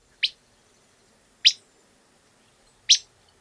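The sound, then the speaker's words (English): Three sharp, high whit calls from a willow flycatcher, each a brief bright chirp, spaced evenly about 1.3 seconds apart against near silence. “The willow flycatcher says free beer. And has this whit call.”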